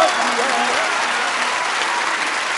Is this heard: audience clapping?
yes